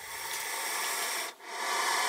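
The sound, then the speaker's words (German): Dry, continuous rasping of a saw-scaled viper rubbing its scales together in warning in a venom research lab, a steady scraping hiss with one brief dip midway. “Eine Sandrasselotter schabt warnend ihre Schuppen aneinander.”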